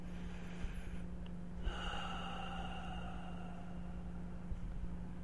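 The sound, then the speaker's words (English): A single deep breath drawn in, soft and airy, starts partway through and carries on faintly over a low, steady hum. “take a deep breath in and just be present right now”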